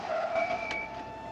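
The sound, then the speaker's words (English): During a chase, a car's engine mixes with brief tyre squeal as the car speeds down an alley and pulls to a stop on a sloped road. “Lon speeds onto a flyover and then down an alley. Pulling onto a sloped road, he stops the car and climbs out.”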